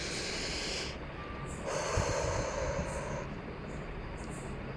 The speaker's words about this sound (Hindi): नाक से गहरी सांस लें और मुंह से छोड़ दें, लंबी सांस।